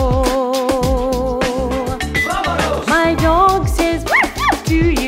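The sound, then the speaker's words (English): Dog-like yips and howls sound over an upbeat birthday song with a steady beat. Several rising-and-falling calls come near the end. “my dog says, "Awoo!"”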